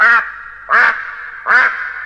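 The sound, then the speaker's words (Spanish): A duck quacks three times in a children's tale scene, with loud, raspy, evenly spaced calls. “Pero acertó a pasar por allí el señor pato.”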